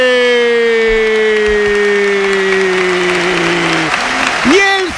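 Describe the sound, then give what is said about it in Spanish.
Stadium crowd in Valencia applauding a goal: a broad roar of clapping and cheering runs throughout beneath a long, sustained shouted voice that slowly falls in pitch. “de Valencia se pone en pie para aplaudir evidentemente el esfuerzo local, pero también para aplaudir el golazo de un chico que tiene algo especial,”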